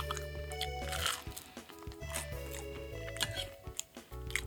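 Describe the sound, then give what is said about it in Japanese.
Soft chewing and crunching of bread dipped in chicken soup, several quiet bites and moist mouth sounds over a steady low hum. “ちょっとねパンを浸して食べてみたいと思いますね”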